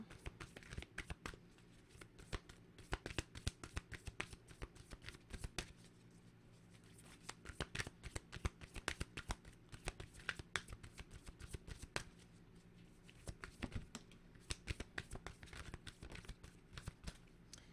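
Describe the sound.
A deck of spiritual reading cards being shuffled: many quick, crisp riffling bursts in clusters, separated by short pauses, fairly faint and heard alone without talk.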